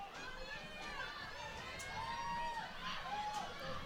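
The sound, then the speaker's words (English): Fans stomp on the bleachers at a college sports game in a faint, continuous rumble, mixed with crowd murmur and occasional shouts. “stomping on the bleachers. That's the sound you're hearing right now. Either that or we're having an earthquake. I'm gonna go with the stomping of the bleachers.”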